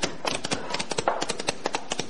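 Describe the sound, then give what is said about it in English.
Horses' hooves clatter along a moonlit street as the riders arrive, a steady stream of many overlapping clip-clops with an uneven, bustling rhythm. “The arriving horses came up into the moonlight street and halted at the corner of the saloon.”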